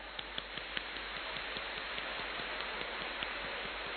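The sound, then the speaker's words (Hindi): Heavy rain falls on a shed roof in a steady, faint, hissing wash, with scattered sharper drop ticks breaking through it. “अब बहुत तेज बारिश, पांच। तीन shade पे बारिश पड़ रही है, ठंडक आ रही है।”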